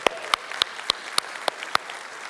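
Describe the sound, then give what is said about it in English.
A church audience applauds first-time guests with rhythmic clapping, seven loud, evenly spaced claps about a quarter second apart over a softer patter of hands. “Can we give it up for anybody that's joining us for the first time?”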